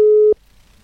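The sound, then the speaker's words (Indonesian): A telephone busy signal plays while a call is being connected: one short, steady, mid-pitched tone lasting about a third of a second, then near silence. “Okay, masih coba terhubung barengan sama Mbah Karsonya sob.”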